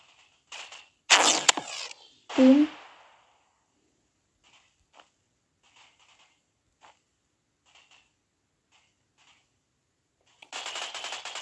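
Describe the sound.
Gunfire in the Roblox video game: three loud, sharp bursts in the first three seconds, then many faint scattered shots across a quiet stretch, ending in a steady rapid burst.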